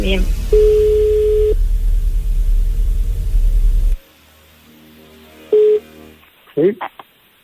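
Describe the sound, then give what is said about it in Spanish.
A telephone ringback tone follows dialling: a steady low tone sounds for about a second over background noise, then a second brief burst follows after a pause. A short voice answers at the end. “Estoy marcando. Qué nervioso. Da tono.”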